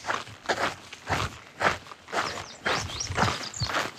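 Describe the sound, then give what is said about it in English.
Footsteps of a long-distance hiker carrying a full pack crunch along a trail through a burned area of shrubby trees, many steady, evenly spaced steps with no talk. “Right now I'm walking through a burn.”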